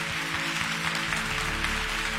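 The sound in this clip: A church audience claps in praise of God, producing a sustained, dense burst of applause with a steady low hum underneath.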